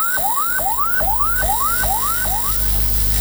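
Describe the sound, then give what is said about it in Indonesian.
An ambulance siren runs its fastest pattern, used when carrying an emergency patient: six quick whoops that each rise in pitch and then snap back down, loud over a low rumble. “Bunyi yang ketiga frekuensinya paling cepat yang berarti ambulans sedang membawa pasien gawat darurat.”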